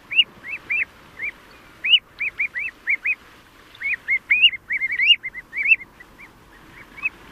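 Common ringed plovers call on a seaside beach during the breeding season, giving many short, high, piping chirps in quick irregular bursts, some in rapid runs, with no talking.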